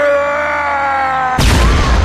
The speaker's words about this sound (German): explodierte in einer Wolke aus pechschwarzem Schleim und blutrotem Höllenfeuer